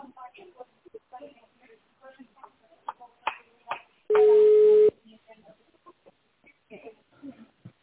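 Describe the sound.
One steady telephone call tone of under a second sounds amid ongoing talk as a call to a car service connects.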